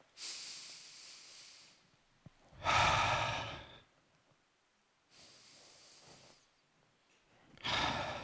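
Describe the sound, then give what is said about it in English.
Deep breathing from an audience joining together during a talk: two long, airy inhales, each followed by a louder, rushing exhale, faint overall with quiet pauses between the breaths. “I'm going to ask you all to join me. We're going to take two deep breaths,”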